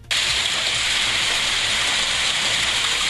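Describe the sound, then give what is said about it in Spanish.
Heavy rain with small hail, a steady, loud, dense hiss of rainfall that starts abruptly and continues without a break, with no separate hail impacts standing out. “Mucha lluvia y mucha piedra, aunque no tan grande, pero bueno, el granizo, ahí está.”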